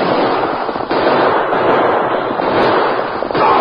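Dense, continuous gunfire from a shootout in an old radio western, with crackling shots piling into one loud, unbroken barrage and no voices heard.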